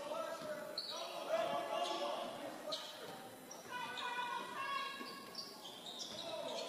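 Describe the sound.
Basketball dribbled on a gym court during a game, its bounces faint and mixed into steady voices and busy background noise.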